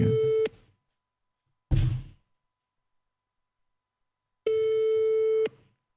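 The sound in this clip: Ringing of an outgoing call to a mobile phone: steady tonal ring bursts separated by silence, a short one and then a longer one, with a brief noisy burst between them.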